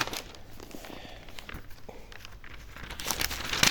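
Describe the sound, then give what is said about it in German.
Bible pages are leafed through during a sermon, making a continuous dry rustling and crinkling of paper with irregular small crackles throughout, growing slightly louder toward the end. “jetzt muss ich selber wieder runterblättern.”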